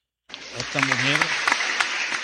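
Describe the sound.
Audience applause for the governor of Chocó starts abruptly after a brief silence and continues as a dense clatter of clapping, with a voice briefly speaking over it early on.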